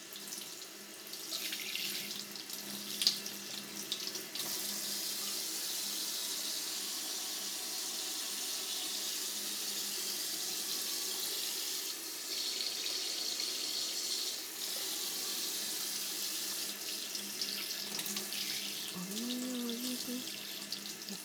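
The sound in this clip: Warm water is poured gently to rinse around an ear, a soft, continuous trickle and splash that stays faint and steady from start to finish.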